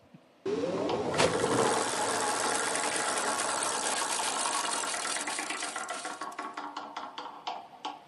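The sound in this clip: A prize wheel is spun, giving a dense, rapid clicking blur that runs steadily for several seconds, then slows into distinct, spaced-out ticks as the wheel winds down.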